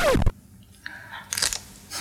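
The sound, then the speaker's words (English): Raw celery is bitten with a sharp, crisp crunch at the start, followed by a pause and a few fainter crunching chews. “have some celery?”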